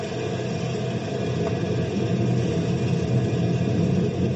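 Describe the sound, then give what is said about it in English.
Deep, steady rumbling from a lifting device thrown into gear in a pit, running continuously and growing slightly louder partway through, with no voices over it. “Throw the lifting device in gear.”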